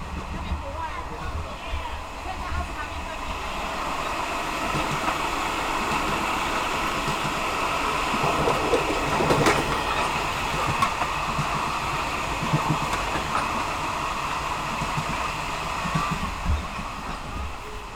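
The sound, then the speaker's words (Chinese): Steady rolling noise of an ordinary express passenger train setting off again, a continuous broad rumble and hiss at even loudness throughout, with a few faint clanks. “那现在对面呢有一辆举光号列车停过，那我们的列车也就要再度开启，开始我们的旅程了。”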